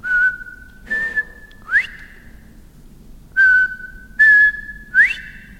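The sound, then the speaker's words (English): Whistled imitation of a quail's call: two phrases of three clear notes each. In each phrase a steady tone is followed by a slightly higher one, then a quick upward-sweeping note, with breathy bursts on each note. “it's hard to find quail. You know, to hear that whistle”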